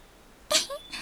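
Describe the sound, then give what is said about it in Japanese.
A black cat meows in a few short, bright calls, with a sudden first burst followed by quick tonal cries, faint against a quiet background. “あれ、どこからか猫の鳴き声が。”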